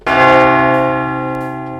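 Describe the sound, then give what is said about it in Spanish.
A church bell strikes once, loud and bright, its rich ringing tone holding and then slowly fading away. “Vamos a escuchar la campana del éxito. Bueno, es una campana normal de iglesia, ¿no?”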